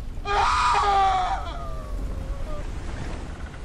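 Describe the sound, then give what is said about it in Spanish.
A scream of pain rings out aboard a ship at midnight in fog, one loud, piercing cry lasting over a second, its pitch sliding down as it breaks off, leaving a faint windy hiss behind. “Un grito de dolor.”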